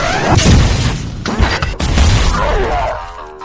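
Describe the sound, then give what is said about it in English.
A BFG weapon blast from a video game roars out as one loud, sustained crashing boom lasting about three seconds, then drops into a thinner ringing tail. “here's your birthday BFG blast.”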